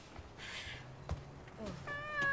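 A black cat meows once near the end, a short, clear, tonal cry that grows louder, after a stretch of soft rustling and low background noise.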